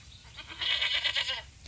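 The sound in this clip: A billy goat bleats once, a wavering, nasal, high-pitched call lasting under a second, heard alone over faint background noise.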